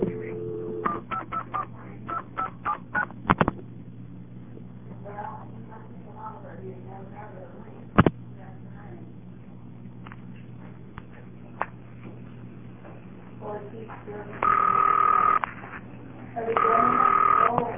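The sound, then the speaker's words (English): Touch-tone dialing of a toll call: a quick run of DTMF beeps, then a quiet stretch with a couple of sharp clicks, followed by two long ringback tones as the call connects. “I'll dial my X number to demonstrate a toll call going through.”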